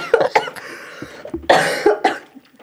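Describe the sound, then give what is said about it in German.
Coughing from someone who has choked on something: several harsh, loud bursts of coughs mixed with throat clearing, coming in uneven clusters before trailing off. “Wir haben vorhin darüber geredet, dass ich mich schon mal verschluckt habe. Sorry.”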